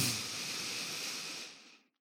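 A single deep breath drawn in through the nose during a guided yoga breathing exercise, a soft, airy hiss that holds steady for over a second and then fades away to silence.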